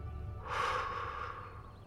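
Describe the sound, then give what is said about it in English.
One slow, deep breath comes as a soft, breathy rush that swells and fades over about a second, quiet and alone. “Breathe out. Breathe in. Breathe out.”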